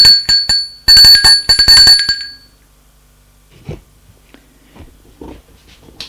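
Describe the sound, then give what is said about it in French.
A doorbell rings at a residence in bright, metallic bursts for about two seconds, then goes quiet apart from faint rustling. “Une demi-heure plus tard, elle sonne chez le duc.”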